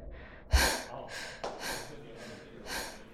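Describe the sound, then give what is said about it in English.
Breaths layered in as a sound effect: a sharp gasping inhale followed by several softer airy breaths and sighs, rising and falling in a loose rhythm with no talk. “And let's layer in a breath as a sort of bridge back to reality.”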